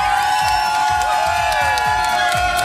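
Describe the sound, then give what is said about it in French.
Radio listeners shouting and cheering at a live broadcast in Ibiza, a loud, unbroken crowd roar with whoops and high shouts that holds steady from start to finish. “Parce que ces gens qui sont là en train de crier, qui sont les auditeurs qui nous ont accompagnés ici à Ibiza”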